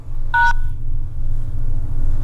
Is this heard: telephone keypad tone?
yes